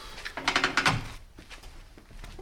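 A key turns in a locked door before it opens: a quick run of sharp metallic rattles and clicks, then quieter handling sounds and movement.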